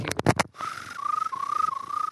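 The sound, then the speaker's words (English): A person whistles in imitation of a cricket's chirp. A steady, high tone trills in rapid pulses, broken into a few short phrases, after a brief burst of other sound at the start. “It was one of those things I figured out on car trips that I can whistle like a cricket.”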